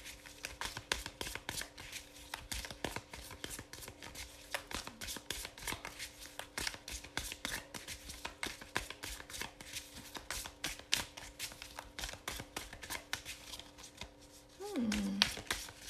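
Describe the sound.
A deck of tarot cards being shuffled, a long quiet stretch of soft riffling, flicking and tapping in a steady patter of many small card sounds, with a voice briefly near the end.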